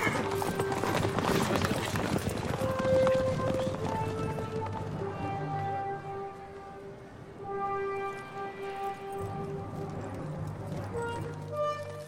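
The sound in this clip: Horses riding through a city gate, their hooves beating out a steady, continuous clip-clop at a moderate level, with sustained tonal notes running alongside.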